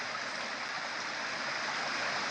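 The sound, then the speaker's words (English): Water of a current flowing under a bridge, a steady, dense rushing hiss like a stream that holds an even, fairly loud level throughout, with no voices. “I am on the bridge that crosses the current, and wonder of wonders, it isn't the water that runs under the bridge, but the bridge that moves the water.”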